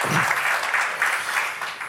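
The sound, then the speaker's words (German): An audience applauds at the opening of a panel discussion on energy with an expert from the Styrian chamber of agriculture. Steady, dense clapping carries on at an even, strong level for the whole stretch. “Ja, gerne noch einmal einen Applaus zum Start.”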